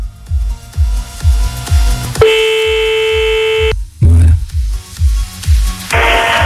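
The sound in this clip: Telephone line tone on a call being redialed, a single sustained electronic beep lasting about one and a half seconds, set against a thumping, regular low beat that pulses before and after it.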